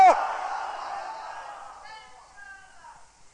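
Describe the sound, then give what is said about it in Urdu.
A crowd at an Islamic gathering loudly shouts Insha'Allah together. A massed roar of voices bursts out and fades over a few seconds, leaving a few lingering voices. “تو ذرا ایک 12 جھنڈے لینے کی نیت سے ایک زوردار, ایسا زوردار انشاءاللہ کا نعرہ ڈالیں کہ ہماری آواز سبز گنبد کو چوم لے, انشاءاللہ.”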